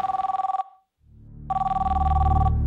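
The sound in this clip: An incoming call rings as an electronic telephone trill in two loud, rapidly pulsing bursts separated by a short silence, with a low rumble building under the second burst.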